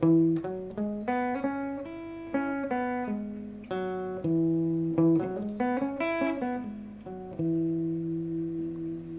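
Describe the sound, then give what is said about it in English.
A major pentatonic scale is played as a melodic run of many distinct plucked single notes, each attacking crisply and decaying, moving up and down before ending on a held note. “major pentatonic sounds something like this.”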